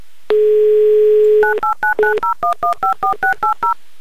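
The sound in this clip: Telephone number being dialed: a steady dial tone holds for just over a second, then a quick, evenly spaced series of short touch-tone beeps follows alone, with no talk.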